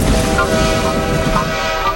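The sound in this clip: A train departing from a station makes a loud, steady rumbling roar with a dense clattering texture that stays constant throughout.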